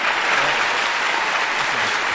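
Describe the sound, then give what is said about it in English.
An audience at Wesleyan applauds as Senator Dick Durbin walks on stage, a loud, dense and unbroken wash of clapping. “Durbin got a huge cheer as he walked on stage, and here we have Senator Dick Durbin.”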